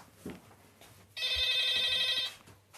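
A telephone rings once, a bright, steady electronic trill lasting just over a second against quiet background noise.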